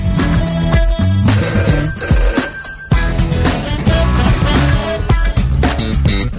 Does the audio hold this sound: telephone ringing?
yes